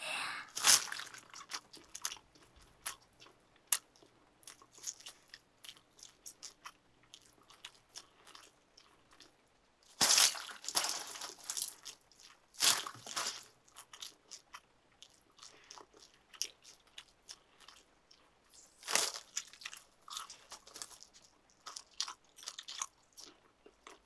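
Crunchy food being bitten and chewed: many crisp crunching bursts in irregular clusters, fairly faint, with quiet gaps between bites and no talk.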